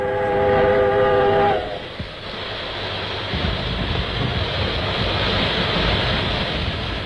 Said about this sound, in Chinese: 在机车放出的蒸汽掩护下，同志们跳下机车就钻到弹药列车下面去